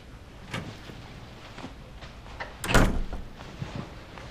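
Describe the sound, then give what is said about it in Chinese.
A door is shut with one brief, fairly loud thud that stands out from a low background hiss and a few faint knocks. “把门关上。”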